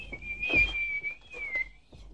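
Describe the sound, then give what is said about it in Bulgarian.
A young man whistles a quiet, sustained, slightly wavering tune with his mouth, the pitch dipping a little near the end. “като спря да си подсвирква с уста”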